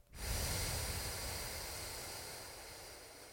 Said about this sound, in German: Und rechts ausatmen.